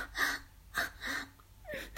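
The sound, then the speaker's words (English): Gagging and gasping for breath, heard as four strained, breathy gasps in quick succession. They are fairly faint, with no words spoken. “I gag. It's hard to breathe like this.”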